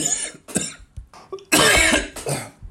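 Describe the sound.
Someone with a tickle in the throat coughs and clears their throat in a few uneven bursts. Short hacks give way to a louder, longer coughing fit, then one more cough.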